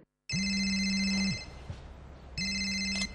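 A telephone rings with an incoming call, an electronic tone sounding in two steady ring bursts separated by a short pause, with no voices.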